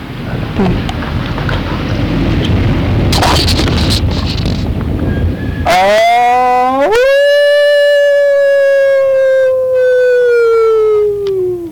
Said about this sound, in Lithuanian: Nu ir atsišaukė. Atsišaukė vilkas.